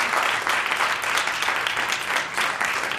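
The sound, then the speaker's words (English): Audience applause at a live music event in Austin, Texas: dense, steady clapping from a crowd that holds at an even level throughout. “Yeah, give it up.”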